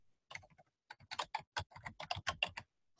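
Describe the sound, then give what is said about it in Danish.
Fingers type an email address and subject line on a computer keyboard. Many light, crisp key clicks come in quick irregular bursts with brief pauses between them, and no voice is heard. “så skriver du din e-mailadresse i her, og så skriver du et emne”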